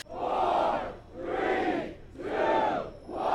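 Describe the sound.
Fans cheer as officials break ground on the Columbus Crew's new stadium, their crowd voices rising and falling in rhythmic, chant-like swells, moderately quiet overall.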